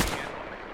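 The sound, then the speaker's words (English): A video game gunshot fired at a feral ghoul in a diner, a single sharp loud blast at the very start followed by a booming tail that fades away. “I just shot twice, and I missed both.”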